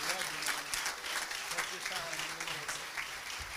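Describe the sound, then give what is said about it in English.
A church audience claps its hands in welcome. The clapping is dense and continuous, with voices heard over and through it. “And so I wonder if you'd just clap your hands and make him welcome to this pulpit.”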